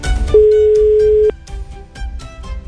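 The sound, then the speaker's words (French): Telephone ringing tone while calling someone: a single loud, steady mid-pitched electronic tone lasting about a second, then it stops and only faint, busy background sound remains. “J'espère qu'elle va décrocher.”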